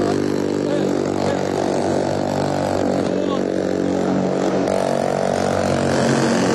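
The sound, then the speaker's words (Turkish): Loud, steady engine roar from two attack boats carrying SAT commandos, arriving during a hostage-rescue demonstration. It holds a constant, heavy droning tone throughout. “SAT komandolarını taşıyan iki atak bot alana geliyor.”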